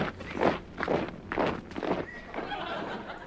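Marching footsteps of an escort ordered forward, a radio comedy sound effect about joining the French Foreign Legion: heavy, rhythmic crunching treads, about four distinct steps, then blurring into a steadier shuffle.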